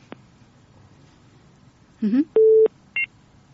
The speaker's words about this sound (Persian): یک خواهر ما تماس گرفته بودن اما متاسفانه که تماسشان قطع شد